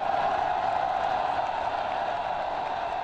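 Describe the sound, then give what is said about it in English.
Crowd noise from tens of thousands of pro-democracy demonstrators on the fifth day of protests in Hong Kong forms a steady, dense roar of massed voices and movement, with no distinct individual events standing out. “That's the sound of the fifth day of protests in Hong Kong, where crowds of tens of thousands of pro-democracy demonstrators are demanding electoral reforms and more autonomy for Hong Kong.”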